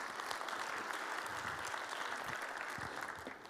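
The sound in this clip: An audience applauds to welcome a speaker, with dense, steady clapping at full strength that eases off slightly at the very end.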